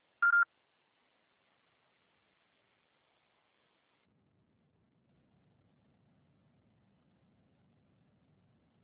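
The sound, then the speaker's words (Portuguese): A telephone signal tone plays before the call starts being charged: one short, loud, mid-pitched beep, then near silence with a faint low hiss. “Você só será tarifado após o sinal.”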